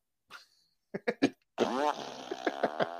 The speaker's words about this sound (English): Kim Jong just starts laughing because they just made the fart noise and gave him away